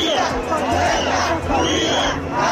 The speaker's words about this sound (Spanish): El primero es el sonido de las protestas en muchas ciudades de España en apoyo a Ceuta. Nos quedamos con el de la propia ciudad autónoma,